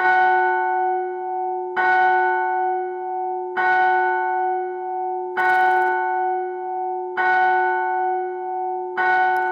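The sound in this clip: A church bell tolls a death knell: six slow, evenly spaced strokes, each a loud clang whose steady humming ring carries into the next stroke, with no voices.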